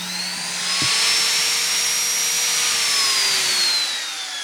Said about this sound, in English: So this is a die grinder. It's what I used to carve necks with.